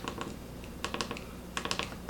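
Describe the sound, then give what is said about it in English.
Rapid clicky key presses on a keyboard as the delete key is tried, coming in three quick bursts of sharp taps with no talk. “All right, does the delete button work? I'm gonna press delete here.”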